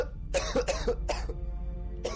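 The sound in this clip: Coughing from a man standing outside a door, several rough, throaty coughs in a quick run, then a pause and one more cough at the end, fairly soft and with no talk.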